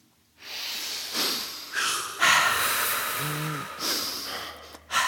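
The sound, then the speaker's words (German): Deep breathing in and out, a character letting out frustration: several long, hissing breaths, some snort-like, follow one another in a slow, steady rhythm, fairly soft overall. “Und jetzt ganz tief ein- und ausatmen.”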